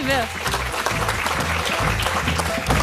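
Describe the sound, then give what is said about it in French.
Audience applause for a quiz guest's correct answer: dense, steady clapping that holds at an even level throughout, with low tones underneath. “Une bonne réponse de notre invité et je vous propose qu'on l'applaudisse”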